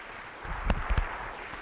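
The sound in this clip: A church audience applauds to welcome a pastor at a morning service: a steady wash of clapping that swells, with a couple of louder bursts near the middle.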